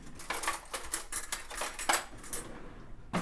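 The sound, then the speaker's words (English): Metal measuring spoon clinking and tapping while turmeric is added to a boiling pot, with many light, irregular clicks and scrapes throughout and no voices. “I'm adding about 1.5 teaspoons of turmeric in there.”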